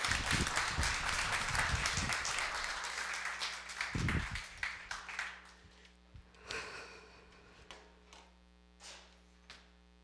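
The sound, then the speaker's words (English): Applause from a church audience welcoming a woman speaker to the stage: a dense wash of clapping fades over about five seconds, leaving a low hum and a few scattered soft sounds. “Let's give her a hand as she comes forth.”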